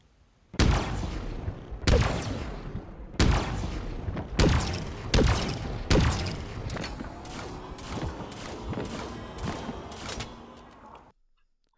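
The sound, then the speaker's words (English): Heavy gunfire from the cinder shot, a video game weapon, in a rapid series of many loud, booming shots with sharp attacks and short decaying tails, spaced unevenly and stopping abruptly near the end. “this next weapon is one of the best weapons in this game, and it is so good. But it, there's a skill gap. The cinder shot.”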